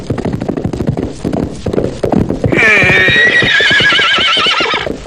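Rhythmic clip-clop of horse hooves gives way to a loud, shrill horse neigh lasting about two seconds, set in a radio drama scene about stolen horses.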